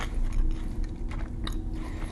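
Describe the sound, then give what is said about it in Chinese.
Chewing chicken strips, with dense, crunchy mouth noise that runs steadily through the short stretch without pauses. “这个鸡柳条倒是蛮好吃的”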